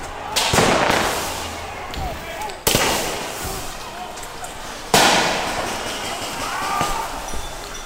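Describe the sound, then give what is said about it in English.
Sharp bangs from fireworks and tear gas canisters fired at a street protest in Portland, Oregon, with a few loud blasts cutting through a steady roar of crowd noise and voices. “Fireworks were set off and tear gas canisters were fired at protesters.”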